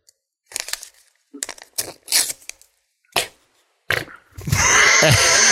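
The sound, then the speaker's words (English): An envelope is handled and torn open, with a few short crinkling, tearing paper bursts separated by pauses, then a longer, louder continuous noisy stretch at the end. “May I have the envelope, please? There you go, sir.”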